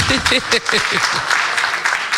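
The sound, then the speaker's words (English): Audience clapping for the women, a dense patter of hands under a person talking over it at similar loudness. “Hello, let's clap for our women here.”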